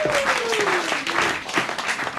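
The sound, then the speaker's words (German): Roaring applause from an audience welcoming a guest onstage: a dense, steady wash of many clapping hands throughout, with a thin tone sliding downward beneath it. “Und deshalb begrüßen Sie heute mit uns mit einem tobenden Applaus”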